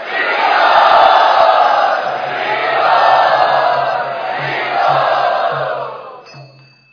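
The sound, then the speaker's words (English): An audience cheers loudly to welcome a guest, a sustained roar of many voices that swells and eases in waves before fading out near the end. “Let us very enthusiastically and loudly welcome Shamdas from”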